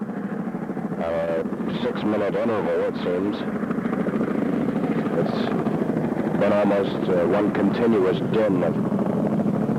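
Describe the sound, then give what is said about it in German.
A military supply helicopter flies in the background, its engine and rotor making a steady, loud droning roar throughout while people talk over it. “Was ihr im Hintergrund hört, ist einer der vielen Nachschubhelikopter, die seit 3 Tagen reinschwirren.”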